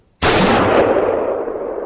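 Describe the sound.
A single loud rifle shot fired on a range, a sharp, abrupt crack followed by a long rumbling tail that slowly fades.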